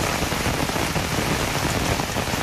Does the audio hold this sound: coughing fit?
no